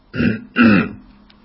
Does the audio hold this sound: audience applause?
no